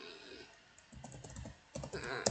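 Quick typing on a computer keyboard, with many soft, rapid clicks in uneven bursts, faint throughout and slightly denser toward the end.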